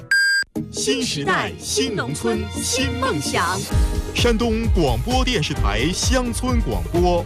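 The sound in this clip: A single short electronic beep of a radio half-hour time signal, followed at once by loud talk.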